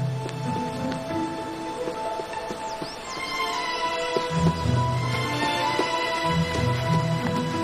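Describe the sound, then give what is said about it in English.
A horse gallops down a hill, its hoofbeats making a steady, continuous clatter that runs through the whole stretch over a busy, tonal background. “A man on a horse gallops down a hill toward her.”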